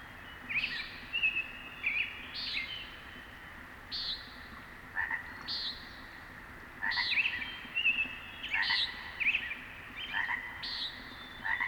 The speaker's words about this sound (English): Listen, the loud, buzzy, pinked calls of a nighthawk, and there I see it, flying overhead like a giant bat